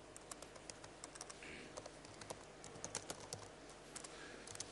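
Typing on a computer keyboard: a faint, quick, irregular patter of soft key clicks over a low, steady hum that continues throughout.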